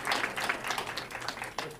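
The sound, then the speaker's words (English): Audience applause welcoming a performing group that plays its music through radios: dense, steady clapping with many overlapping sharp claps, sustained at an even level for the whole stretch without a clear break. “So let's have a round of applause, a warm welcome for Radio 4x4.”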